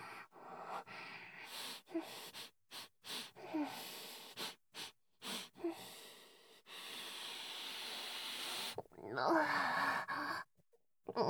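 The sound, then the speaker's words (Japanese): Deep breathing: a series of heavy, sigh-like breaths and airy exhalations, fairly quiet, separated by short silences, with a voice briefly heard near the end. “深呼吸、深呼吸。”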